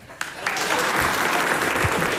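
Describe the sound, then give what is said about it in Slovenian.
Applause from the second half of an audience, loud and dense, swelling up quickly at the start and then holding a steady, even roar of many hands clapping through to the end. “Ajde zdaj, publika, pa druga polovica, aplauz!”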